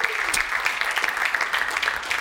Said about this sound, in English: And we just want to take a moment and say welcome. Can we welcome everybody joining us online?